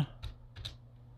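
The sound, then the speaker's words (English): Someone types on a computer keyboard with one hand, producing a few soft, sparse key clicks separated by quiet pauses. “I'm gonna try and type with one hand.”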